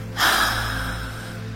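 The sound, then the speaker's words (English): A single deep breath released through an open mouth: a sudden breathy rush of air that slowly fades away, heard alone. “Breathe deeper, deeper, deeper. And now open your mouth and release.”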